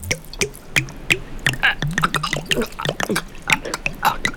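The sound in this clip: Water pours from a flask straight into an open mouth, heard as many wet drips, splashes and gurgles in quick succession, with voiced mouth sounds mixed in throughout.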